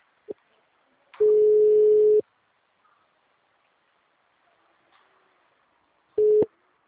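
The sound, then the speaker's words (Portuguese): Telephone ringback on a call line: a quiet click, then one low, steady tone lasting about a second. After a long silence, the next identical tone begins and is cut short. “Tô ligando pro senhor. Me atende aí.”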